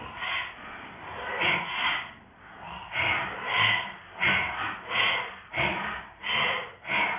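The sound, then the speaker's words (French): Forceful, rhythmic breaths drawn through the mouth during a guided breathing exercise, repeating as a steady series of airy, hissing pulses that rise and fall in loudness. “Inspire par la bouche, attention à votre langue.”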